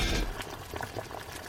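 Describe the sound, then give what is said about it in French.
Bubbling and gurgling of a laundry boiler coming to a boil: soft, continuous burbling with small irregular pops, fairly faint and heard alone. “Et là, d'un coup, dans le dos de la mère Lapierre, la lessiveuse se met à bouillir. Et le couvercle se soulève.”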